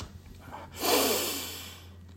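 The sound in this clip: A deep breath drawn in during a guided awareness exercise: one long, airy inhale lasting just over a second, rising quickly and then fading slowly, heard alone.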